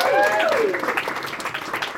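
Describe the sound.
Audience applause welcomes a guest onto a show as a dense, steady patter of many hands clapping. A voice trails off at the very start, and the clapping holds fairly even throughout.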